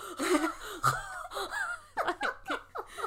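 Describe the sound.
A voice imitates heavy breathing while running, with loud gasping breaths that speed up into a quick run of rhythmic panting gasps, mixed with a little laughter.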